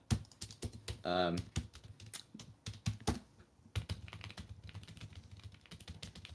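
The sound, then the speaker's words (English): Typing on a computer keyboard: many rapid, irregular keystrokes clatter fairly loudly, with uneven bursts and short pauses between runs of clicks. “The typing was pretty loud. That probably didn't help.”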